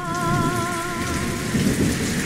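Steady rain hisses throughout with low rumbling thunder, while sustained musical tones hold above it.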